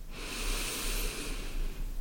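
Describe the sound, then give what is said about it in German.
A deep breath drawn in through the belly during a guided relaxation exercise: one soft, steady, airy inhale that lasts throughout. “3 tiefe Atemzüge können wir gerne gemeinsam machen. Dass du tief einatmest in den Bauch”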